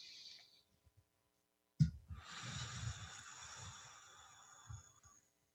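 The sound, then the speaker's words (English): A breath drawn in sharply and sustained as a soft, airy rush for roughly three seconds before fading out. It is fairly faint and heard alone, with no talking. “Take a breath.”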